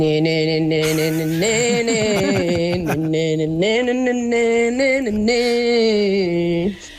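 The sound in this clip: A woman hums the chorus of a song that musicians played live, a sustained, wordless melody in a mid-range voice that steps between held notes with small glides, running about seven seconds before it stops.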